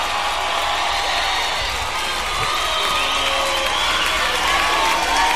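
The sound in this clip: An audience at a Latin American ska show cheers and applauds for a band: a loud, continuous roar of voices and clapping that holds steady and swells slightly toward the end.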